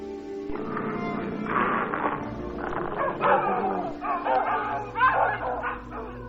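Dogs barking as they are set loose to scare people off: several sharp barks rise out of a steady low hum, growing louder in bursts toward the middle and end.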